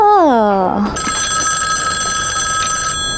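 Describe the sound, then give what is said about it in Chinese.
A telephone rings with a bright, steady electronic tone held for about two seconds, opened by a brief falling sweep of tones. “电话，哦，电话来了，是不是？”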